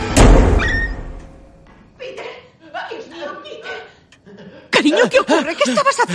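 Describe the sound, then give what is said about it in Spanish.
A door slams shut by itself in a scene from the 2018 supernatural horror film Hereditary. One loud, heavy thud opens the moment, then voices follow. “Tiran con fuerza. La puerta se cierra sola.”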